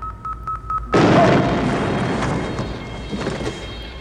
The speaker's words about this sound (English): Alert, Klingon torpedoes activated. Alert. Evasive action.